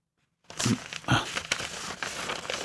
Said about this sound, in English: Does it matter which way I rip it? I don't think so, just start pulling. Man, why is there so much paper on this?